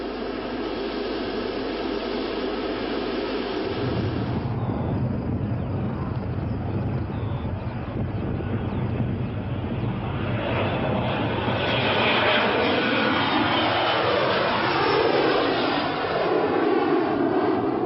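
Aircraft taking off: a loud, steady engine roar with broad rushing noise that swells somewhat in the later part, with no voices.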